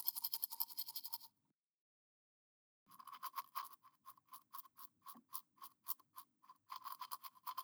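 A toothbrush scrubs teeth in quick, rhythmic back-and-forth strokes that come in soft bursts, with a clear pause of silence between the runs of brushing.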